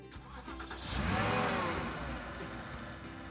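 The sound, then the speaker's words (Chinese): A car engine starts and drives off, a fairly faint rumble that swells to a revving peak in the middle and then eases back down. “走，我开车送你去学校。”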